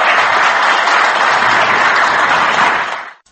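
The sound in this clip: A standing ovation for Yerevan's newly elected mayor after the city council vote. The loud, dense clapping holds steady, then fades out quickly at the very end.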